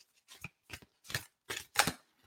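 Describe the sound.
Abraham Hicks well-being oracle cards being shuffled and drawn: five short, crisp bursts of papery rustling and snapping, quiet and evenly spaced, with silence between them.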